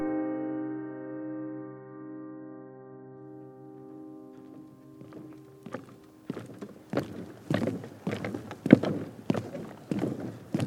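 Footsteps climb the stairs to Nadar's attic studio in a Paris building, following a steady droning tone. The steps come as many uneven thuds that grow louder and more frequent toward the end.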